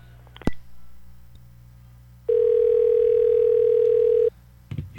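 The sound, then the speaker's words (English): A telephone line tone sounds during a call attempt: a sharp click, then one steady, loud mid-pitched tone lasting about two seconds, followed by a couple of brief clicks. “I'm going to try this one more time just to make sure I'm not misdialing.”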